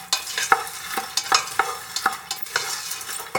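Popcorn kernels stirred in a pan to coat them in garlic coconut oil give repeated scraping and rattling strokes at a fairly steady rhythm, with a light sizzle underneath.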